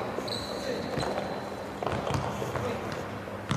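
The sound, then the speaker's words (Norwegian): Rubber-soled shoes squeak on a linoleum gym hall floor: a thin, high squeal near the start, with scattered dull thumps and quick running steps over steady, busy background noise. “det jo denne lyse frekvensen av gummisål som treffer linoleum, eller hva man kaller det”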